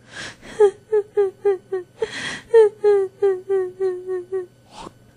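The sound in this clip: A little girl cries in grief: a long run of short, voiced, high whimpering sobs in a steady rhythm, broken by sharp, breathy gasping inhalations, loud and without other talk.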